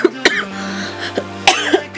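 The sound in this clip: Several short, dry coughs from a throat parched by fast talking, coming in scattered bursts over a faint steady low hum.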